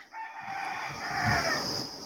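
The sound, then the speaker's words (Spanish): Roosters crow in one long, sustained, shrill call that holds steady and loud for about two seconds, with no voices. “Están los gallos activos otra vez.”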